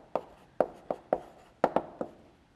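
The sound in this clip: Writing on a board during a lecture on dynamic programming: seven sharp, dry taps and strokes in an uneven rhythm, fairly faint, with no talking over them.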